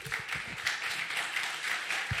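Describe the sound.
An audience applauding to welcome a speaker, a faint, steady patter of clapping hands that lasts about two seconds.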